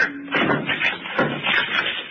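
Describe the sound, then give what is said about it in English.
A locked tall white cabinet is smashed open, giving a few loud, noisy crashing bangs with rattling debris between them. “Open it. Open it, Tato. Locked. Locked, Doctor. Smash it open. Open it. I do.”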